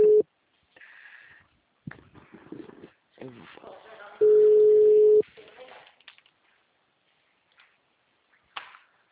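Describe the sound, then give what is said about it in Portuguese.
A telephone busy signal: a steady mid-pitched beep, brief at the start and then one held for about a second midway, between stretches of voices on the line. “Essa moça pediu para me ligar uma hora. O número está ocupado.”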